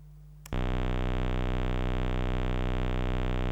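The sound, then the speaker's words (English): A square wave tone extracted from a single on-off bit of a digital output starts abruptly and holds one steady, buzzy, harmonically rich pitch, loud and unchanging to the end. “a square wave for each bit that can be on or off. And I can demonstrate this, for example, by just extracting one bit. Now the pink thing is the square wave I extracted from that,”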